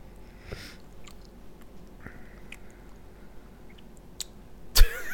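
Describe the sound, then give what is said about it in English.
Someone chews food noisily: a few faint, soft bites and crunches spread over quiet moments, then one louder, sharper crunch near the end. “You just be a chomping away and you're sweet. I'm quite a loud eater.”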